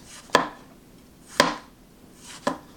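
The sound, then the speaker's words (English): A knife thinly slicing a cucumber on a cutting board gives three sharp, distinct chopping taps, evenly spaced about a second apart, with quiet between them. “So some nice thin slices of this cucumber, no problem.”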